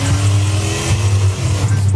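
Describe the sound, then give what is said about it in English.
A souped-up Dodge Charger engine revs loudly in downtown Seattle at night, a deep roaring growl that surges and dips without stopping. “he's accused of racing his souped-up Dodge Charger through downtown Seattle at night when people are trying to sleep.”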